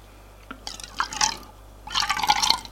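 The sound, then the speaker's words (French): Drinks poured from a bottle into two glasses set on a coffee table: two separate bursts of bright trickling liquid, each under a second long, split by a short pause. “Il revient avec une bouteille et deux verres qui pose sur la table basse et fait le service.”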